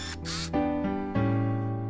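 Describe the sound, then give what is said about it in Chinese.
Camera shutter sound effect: two quick bursts, then sustained ringing tones. “苍鹭先生分别给他们拍照留念。”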